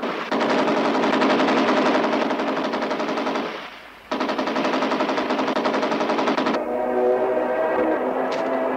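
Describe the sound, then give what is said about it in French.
Machine gun fire in front of a German headquarters: two long bursts of rapid, continuous shots, the first tapering off before a short pause, then giving way to a lower, steadier noise at the end. “Plus haut! Plus haut! Tire très imprécis.”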